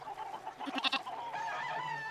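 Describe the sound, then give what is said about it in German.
Sheep bleating and chickens clucking at a herders' livestock camp beside a yurt: a quick run of short, rhythmic clucks is followed by a longer, wavering bleat, all fairly faint. “Schafe blöken, Hühner gackern umher.”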